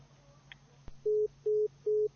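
Telephone busy tone after a call to a phone-in line disconnected: a sharp click, then three steady, evenly spaced mid-pitched beeps of equal length and loudness, with no talking.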